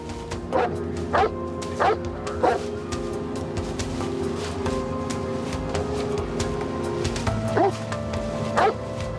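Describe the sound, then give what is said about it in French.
A police sniffer dog tracking suspects into nearby woods gives a few sharp woofs and yips in short, irregularly spaced bursts over a steady background hum. “Un chien renifleur se mit sur leur piste.”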